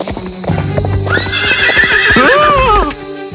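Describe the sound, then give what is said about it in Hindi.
Hooves clop in a steady rhythm as a horse is ridden on a road, then the horse gives a long, loud whinny with wavering pitch. “तुम ध्यान रखो लड़के, तुम सड़क के बीचों बीच घोड़े पर सवारी नहीं कर सकते हो।”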